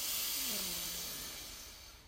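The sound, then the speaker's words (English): A long, slow exhale during a guided deep-breathing exercise. It is a soft, breathy hiss that gradually fades over about two seconds. “So deep breath in, expand your belly. And then let out all that stale air.”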